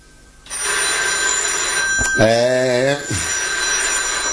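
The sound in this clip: Telephone ringing, loud and steady with a constant hum underneath, with one distinct ring burst in the middle.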